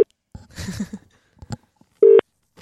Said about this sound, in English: We're going to be dialing effective immediately.